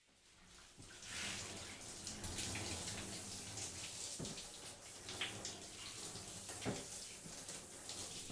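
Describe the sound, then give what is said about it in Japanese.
Shower water running onto hair to wet it all over during a hair wash: a faint, steady rush of spray with small splashes scattered through it. “シャワーの水を足して全体的に髪を濡らしますね。”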